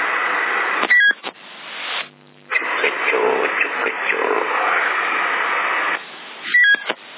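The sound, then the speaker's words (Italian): CB radio switched on and set to FM, giving a steady band-limited hiss of static with a brief dropout, bracketed by a few short electronic beeps near the start and again near the end. “Adesso lui accende, si sente, mette l'FM, perché c'è anche l'FM”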